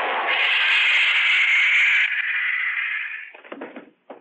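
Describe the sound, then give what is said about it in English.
A stun gun blast in a dark alleyway: a loud, sustained electric buzz lasting about three seconds that fades out, followed by a few short knocking scuffles. “That stun gun blast ought to keep him on ice for a couple of hours.”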